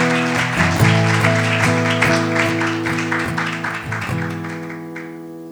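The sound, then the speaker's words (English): Audience applause after a welcome, a dense clapping texture spread over sustained chords from worship music that continue throughout at steady loudness. “Let's give them a hand.”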